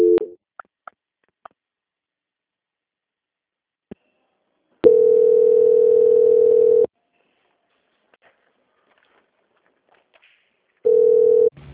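A telephone transfer tone on a bank call plays as a steady, mid-pitched beep lasting about two seconds. Another beep starts near the end, with scattered clicks and silence between.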